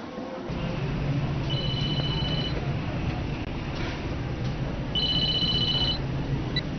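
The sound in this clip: Electronic telephone ringtone rings in two separate bursts of a bright, steady tone over constant background noise, with a quiet gap between them.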